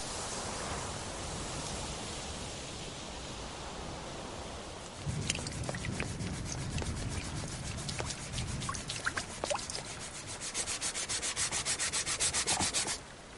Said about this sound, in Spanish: Este lija un mueble.